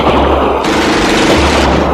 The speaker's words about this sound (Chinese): 他手下的宪兵们立即向小丽媛和老兵射出了密集的子弹